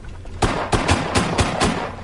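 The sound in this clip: Six revolver gunshots fired in quick succession at a tossed coffee cup: sharp, loud cracks spaced roughly evenly over about a second and a half, each with a brief ringing tail.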